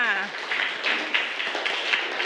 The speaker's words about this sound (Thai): เยี่ยมมากปรบมือให้กลุ่ม5ค่ะ